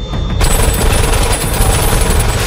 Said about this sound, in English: In the blood-streaked corridor, a flashbang erupts near three guards.